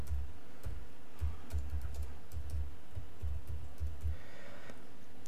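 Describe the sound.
Typing a message on a computer keyboard: many quick, irregular keystrokes tapping in bursts with short pauses, dull low thumps under a constant background hum.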